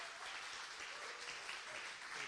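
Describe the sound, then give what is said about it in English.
A church audience applauds to welcome a visiting bishop as speaker: a faint, dense wash of many overlapping claps that holds at a steady, even level from start to finish. “So why don't we welcome Bishop Adrian with a round of applause?”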